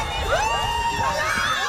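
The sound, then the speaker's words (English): About 150 university students cheer and shout at an inter-house sports day, a brief, lively mix of overlapping whoops and high excited voices. “That's the sound of over 150 students celebrating sports and community in St.”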